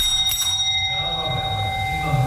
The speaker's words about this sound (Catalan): Que al cap d'uns 7 minuts d'estar conversant amb la persona que t'ha tocat, sonarà una mena de campana com aquesta.